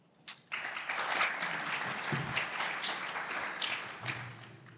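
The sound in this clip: Conference audience applauding to welcome two speakers to the stage: after a brief tap, steady, dense clapping rises quickly and holds at an even level for about four seconds.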